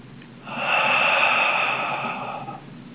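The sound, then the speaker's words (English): A single long, deep breath, soft and airy, swelling after a brief quiet start, holding steady for about two seconds, then fading out alone. “Take a deep breath.”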